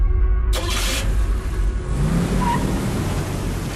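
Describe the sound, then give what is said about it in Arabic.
A car engine revs hard as the car is driven fast, a loud, steady roar that fills the whole clip. “أوف أوف، الله يهديك، تسوق وكأنك في حلبة سباق.”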